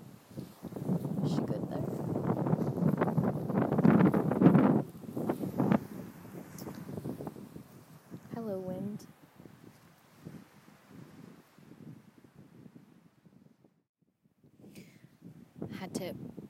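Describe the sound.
Gusty outdoor wind buffeting the microphone in rough low rumbles that swell and fade, heard beneath people talking, with a quieter lull near the end.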